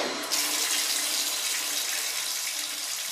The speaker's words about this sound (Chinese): 好了，涂的也差不多了。现在就把沐浴露冲洗干净吧。